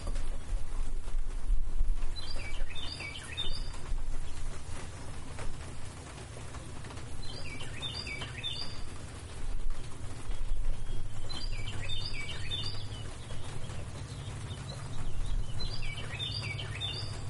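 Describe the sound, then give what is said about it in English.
A bird sings short, high, twittering phrases, four separate bursts spaced a few seconds apart. They sound over a steady background of rain and low rumble in a mountain setting, and no voices are heard. “Don't focus on the bird. You're going to want to, but just block it out.”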